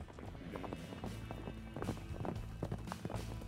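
Galloping horse hoofbeats in a Western radio drama: a rapid, rolling clip-clop rhythm that is fairly faint and continues without a break across the whole stretch.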